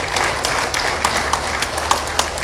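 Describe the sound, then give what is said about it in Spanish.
Audience applause at a municipal council ceremony in Bolivia: a dense, steady patter of many hands clapping, with a few sharper claps standing out, continuing throughout without speech. “Un voto de aplauso, por favor, para nuestro hermano Evo Morales Ayo.”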